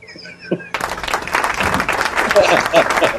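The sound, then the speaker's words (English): Crowd applause bursts in abruptly after a short run of thin, whistling tones, then swells into dense, sustained clapping that carries to the end, with people talking over it. “Can we get some applause for the Fed going away?”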